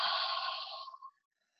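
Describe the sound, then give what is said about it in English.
A single deep breath during a guided breathing exercise: one breathy rush of air lasting about a second, fading into silence. “let's take a deep breath together. Exhale everything out. Deep inhale. And exhale.”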